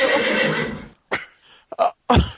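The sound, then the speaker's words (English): A horse screaming in pain: a long, loud, harsh whinny, followed by a few shorter, sharp cries with brief gaps between them. “Oh, there it is. There it is. It's a horse screaming out in pain.”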